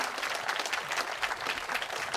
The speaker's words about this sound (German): Applaus, Applaus für Trisha Collins, Merit Esther und Denise Dombrowski.